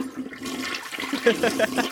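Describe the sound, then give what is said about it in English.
A toilet flush used as a sound effect: water rushes and swirls, then breaks into bubbly, gurgling tones as it drains, at moderate volume with no speech over it. “Lindsey Graham gets the toilet flush”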